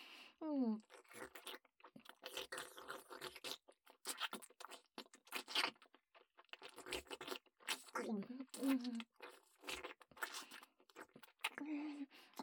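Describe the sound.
Someone eating food, with many crisp, crunchy bites and chews in an uneven stream, while people speak briefly now and then.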